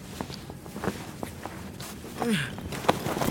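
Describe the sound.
Soft footsteps of a person walking, a steady series of quiet, evenly spaced steps over low background noise.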